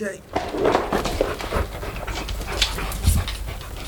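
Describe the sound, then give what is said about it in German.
A dog panting and whimpering as it comes off a boat onto a landing stage over a plank laid from the deck to the jetty. The sounds are steady, breathy and fairly loud, with a few short sharper bursts. “Wer wird hier über die Planke geschickt? Das ist unser Hund. Was für ein niedlicher Racker.”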